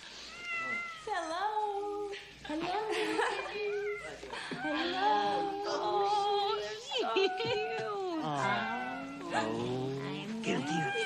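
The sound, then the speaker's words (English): A black kitten meowing in a rundown barn: many loud, high, wavering meows follow one another almost continuously, some rising and falling sharply in pitch. “A black kitten runs off.”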